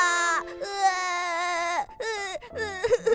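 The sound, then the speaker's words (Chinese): Crying and sobbing from a little rabbit character in a children's story, a high, voiced wail in several drawn-out pitched bursts with short breaks, trailing into shaky whimpers. “你不要太难过了啦，不要再哭了。”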